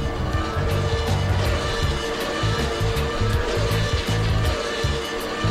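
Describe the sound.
Roaring engine of a black Ferrari speeding along a motorway to outrun police, its note surging and dropping in repeated bursts as the car accelerates, loud and steady with no voices.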